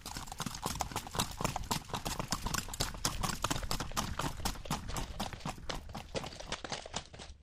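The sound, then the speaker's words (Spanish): A Criollo mare moves at a trotting, galloping gait on an unpaved dirt road. Many rapid, evenly spaced hoofbeats clop steadily through the whole stretch. “su andar es trotona galopera. Esta yegua se llama Linda”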